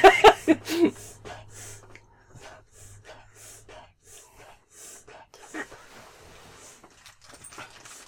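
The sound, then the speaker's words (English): A dog sneezing: a few sharp, snorting bursts at the start, followed by quieter breathy puffs and faint sniffling sounds. “That's the dog sneezing.”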